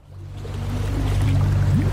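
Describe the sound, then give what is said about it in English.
Boats passing on the River Seine in Paris give a low, steady motor drone that swells in over the first moments, with a faint wash of water on top. “Nowadays, the soundtrack of the Seine in Paris is like this. Only boats are allowed to circulate on it, no swimmers.”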